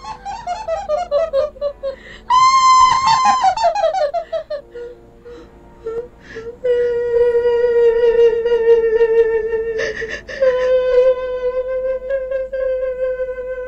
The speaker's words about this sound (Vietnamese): Tiếng hét dừng lại, tiếng cười cũng im bặt.